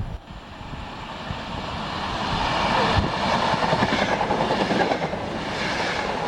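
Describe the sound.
Train at a station, a steady low rumble with rhythmic clickety-clack of wheels that grows a little louder after the first couple of seconds, a high whine sitting above it.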